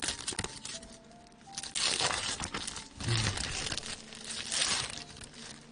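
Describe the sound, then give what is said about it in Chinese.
Wrapping crinkles and rustles as a gift package holding a wristwatch is opened, in irregular, fairly faint bursts of crackling paper. “一份迟咗好耐嘅礼物，我今日专登攞嚟俾你噶。 吓、啊，咩嚟噶？ 自己拆开嚟睇下咯。”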